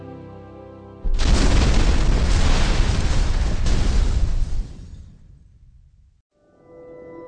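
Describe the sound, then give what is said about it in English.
A bomb explodes on the ground near a walker: a sudden, loud blast bursts in with a sustained roaring rumble that holds for several seconds, then fades away into quiet. “The bomb hit the ground between Elzar and the walker, and everything turned red.”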